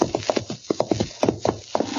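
Horses' hooves clip-clop in a quick, steady rhythm as riders head out on horseback, with many crisp, hollow hoofbeats following closely one after another.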